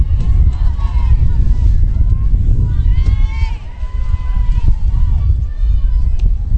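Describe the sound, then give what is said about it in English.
Wind blows across the field during a ball game, buffeting the microphone with a heavy, continuous low rumble and gusty surges that briefly dip midway, with faint higher tones drifting above. “And you can just imagine what's happening here with the wind blowing.”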